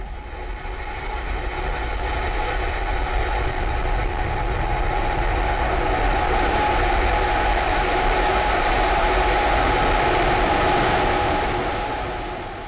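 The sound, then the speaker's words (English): Deep, continuous roar of a SpaceX Raptor rocket engine propelling a water-tower-like test vehicle 150 meters into the air, swelling over the first seconds, holding at full strength, then easing slightly at the end. “Sound you hear is the power of SpaceX's new Raptor engine propelling a homemade water tower looking thing 150 meters into the air.”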